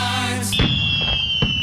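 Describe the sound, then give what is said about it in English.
Fireworks going off as the first firework of a display: a high, steady whistle cuts in and holds while a few dull booming bursts thump underneath, following a fading tonal sound at the start. “that was the first firework”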